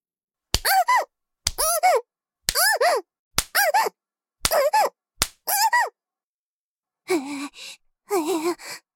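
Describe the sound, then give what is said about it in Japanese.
A hand spanks a bottom in a series of sharp smacks, each followed at once by a high squealing yelp. Two longer whimpering cries follow without smacks. “だから、お尻叩くのはダメですって。”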